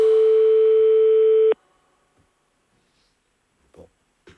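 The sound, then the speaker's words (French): A telephone tone after the handset is hung up: a loud, steady electronic tone holds for about a second and a half, then cuts off sharply, leaving near silence with a few faint soft sounds. “Bon, je vais raccrocher, j'en peux plus.”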